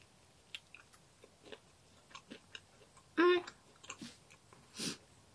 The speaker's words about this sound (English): I'm gonna take a bite of my chicken wing. Oh, they're not crunchy.